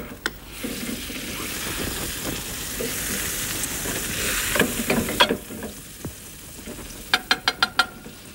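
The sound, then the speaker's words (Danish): Butter browning and sizzling in a frying pan, a steady, dense hiss that holds throughout, with a few sharp clicks and taps bunched near the end. “Jeg skal lige have det smør på panden først, for så kan vi vist nå at få det til at brune.”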